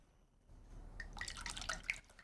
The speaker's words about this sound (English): She sits on a sofa nearby and pours herself another glass of wine.